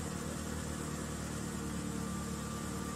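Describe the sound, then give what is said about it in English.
The engine of an old 1992 car runs with a steady, dense mechanical rumble and whir that stays at a constant level throughout, with no voices. “As each of you, as you're talking to each other, the car turns on.”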